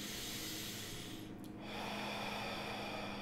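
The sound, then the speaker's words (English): Deep breathing in and out during a guided meditation with hands on the chest. Soft, airy breaths are faint and unhurried, with no talking. “deep breath in, deep breath out. Second time, inhale. Last time, inhale.”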